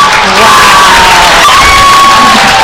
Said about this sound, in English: all the CIA people cheering, all the crowd clapping